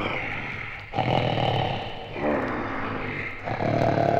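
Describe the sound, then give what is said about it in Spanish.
Loud snoring from someone who has fallen asleep after eating, in a dramatized fairy tale: a few long, rasping breaths separated by short pauses. “se acostó de nuevo y quedándose dormido empezó a roncar ruidosamente.”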